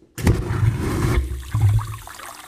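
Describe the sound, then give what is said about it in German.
A vacuum toilet flushing after its flush button is pressed, in a Hamburg water-utility setting: after a brief silence, a loud, forceful rushing suction roar lasts about a second, then eases into a lower gurgling wash of water. “Die junge Frau drückt auf den Spülknopf einer Vakuumtoilette.”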